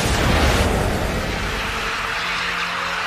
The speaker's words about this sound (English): close enough to employ a deadly innovation. The biggest artillery weapon in the world, the Paris gun.